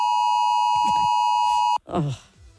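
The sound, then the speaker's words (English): Electronic alarm tone, a two o'clock alarm played as a mystery sound in a guessing game: a steady, high, sustained beep holds for nearly two seconds with faint noises beneath it, cuts off sharply, and a voice follows. “that was that 2 o'clock alarm.”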